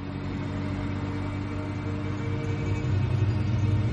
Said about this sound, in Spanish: Se acercan a dos coches que circulan por delante de ellos en el mismo sentido. Avanzan en paralelo ocupando los dos carriles de la calzada.